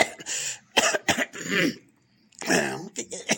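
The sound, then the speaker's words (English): A heavy cigarette smoker clears their throat in several rough, gravelly, coughing bursts of uneven rhythm. The bursts break off in a short pause, then resume. “but I just need to clear my throat a little bit”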